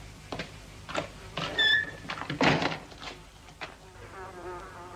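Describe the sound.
A door shutting with a dull thunk amid a few scattered knocks and a brief squeak, while a fly buzzes on and off.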